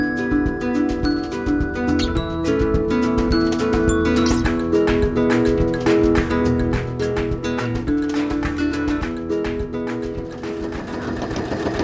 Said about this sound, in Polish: dzisiaj będziemy właśnie za chwilę siadać do maszyny i szyć kolejne rzeczy